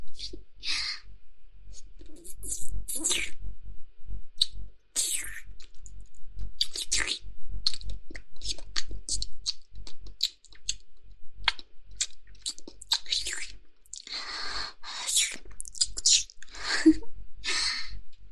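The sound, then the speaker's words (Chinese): Wet licking and mouth sounds on a collarbone, in an intimate role-play: many soft, sticky clicks and slurps in irregular clusters, with brief breathy pauses between runs. “不知道这么漂亮的锁骨，尝一尝是什么感觉？让我舔一舔吧。”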